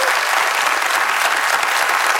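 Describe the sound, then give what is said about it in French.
A studio audience applauds in a loud, dense burst of clapping that runs evenly through the whole moment without letup. “On l'applaudit.”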